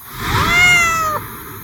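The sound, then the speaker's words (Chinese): A cat gives a single drawn-out meow, clear and fairly loud, holding a steady tone before it breaks off, with nothing else around it. “睁开眼，什么都没有变，除了我，变成了一只猫咪。”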